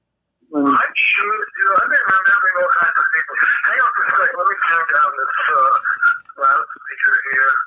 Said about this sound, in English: Hang on for a sec. Let me turn down this loudspeaker here.